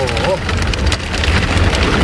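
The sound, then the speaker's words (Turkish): Heavy rain from a sudden afternoon downpour in Ankara that flooded streets and buildings, heard as a dense, steady roaring hiss that stays loud and even throughout. “Aniden bastıran sağanak yağış tüm hayatı felç etti.”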